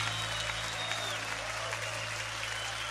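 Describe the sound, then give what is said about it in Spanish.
Congregation applause at a church worship service with a band: dense, steady clapping that holds an even level throughout, over a low constant hum. “tu aplauso a él fuerte.”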